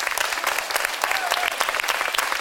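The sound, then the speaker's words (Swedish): Applause from an audience at an audiobook award ceremony: dense, loud, steady clapping that fills the whole clip without a break. “Det var väl välförtjänta applåder.”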